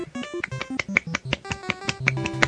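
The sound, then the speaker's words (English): Fingers flicked rapidly against the palm of one hand to mimic one-handed clapping, producing many sharp, snapping slaps in a quick, uneven series. “That's the sound of clapping with one hand. What the hell did you just do? It's almost like flailing your hand around and having your fingers, you know, hit the palm of your hand.”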